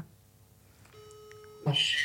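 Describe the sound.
A short electronic beep is heard while a phone call is being dialled. The steady tone is faint and lasts under a second, and a brief louder burst follows it.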